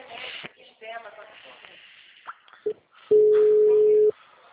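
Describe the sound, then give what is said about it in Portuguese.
A single steady beep lasting about a second, a busy tone after a phone call dropped, comes after a few seconds of talk and short bursts of noise. The tone is loud and holds one even pitch before it cuts off. “a ligação caiu.”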